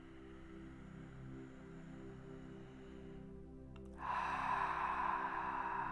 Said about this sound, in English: I'm gonna ask you to take a deep breath in, a deep breath out